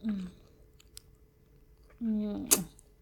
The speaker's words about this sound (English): Licking juice off of my fingers.